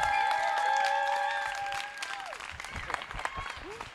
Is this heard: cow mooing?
no